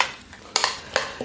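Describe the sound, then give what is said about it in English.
A utensil stirs baby spinach through a pan of greens with sesame and chilli. A few light metallic clinks and scrapes come at uneven intervals over a quiet background. “toss through some spinach. Baby spinach is good. Yeah. Just put it through. There, and give it a good stir.”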